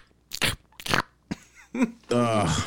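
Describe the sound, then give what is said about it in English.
Crispy chicken nuggets crunch loudly as they are bitten and chewed, with two sharp crackling bites followed by a brief voiced sound and more crunchy chewing near the end. “Oh man, these nuggets are so crispy. It's so good. Everything sounds like this.”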